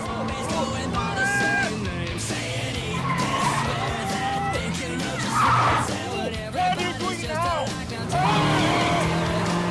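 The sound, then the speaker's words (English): Tires squeal again and again over a continuous engine roar as a dual-control car speeds through an intricate course of cones and barriers, the squeals rising and falling in pitch. “He rides up a broken barrier and tilts the car sideways up onto two wheels.”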